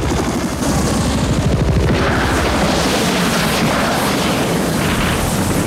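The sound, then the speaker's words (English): Helicopters fire on a riverbank, with gunfire and explosions in a loud, unbroken barrage. Rapid low thudding bursts dominate at first, then a dense roar of blasts and shots continues throughout. “As the choppers start firing at the riverbank, Erickson cowers from the explosions. The American gunboat explodes.”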